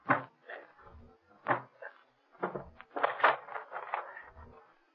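A wooden door being broken open: heavy thumps, creaks and splintering cracks in an irregular burst, fairly loud, with no talk over it.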